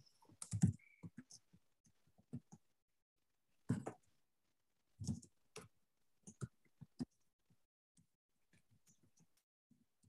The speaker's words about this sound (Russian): Ctrl-L изо всех сил нажимаю.